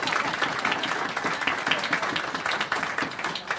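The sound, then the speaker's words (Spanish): A church audience claps for a pastor who is translating, in dense, rapid applause that stays even and loud throughout, with no single voice standing out. “let's give Pastor Ernesto a big hand. Vamos a darle un aplauso al Pastor Ernesto antes de continuar.”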